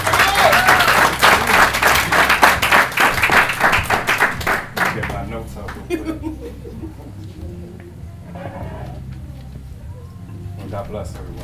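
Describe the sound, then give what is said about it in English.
Dense applause and clapping from an audience welcoming a speaker who will share his story at a religious gathering, loud for about five seconds before fading into quieter room murmur and voices. “Let's welcome him. Let's give him a hand.”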